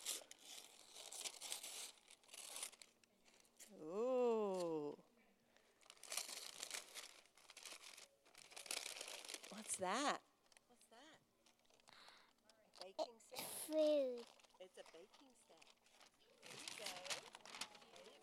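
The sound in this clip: Wrapping paper crinkles and tears in repeated bursts as a child rips open a tightly wrapped gift, with people talking in between the rustling.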